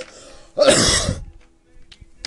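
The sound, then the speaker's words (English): One loud, harsh cough, a raspy throat-clearing burst lasting about half a second, followed by near quiet with a few faint clicks. “I don't have the COVID. I just... It's coughing.”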